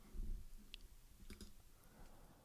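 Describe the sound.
Sparse, faint clicks while a Google search is typed on a computer, a few isolated taps separated by quiet background noise.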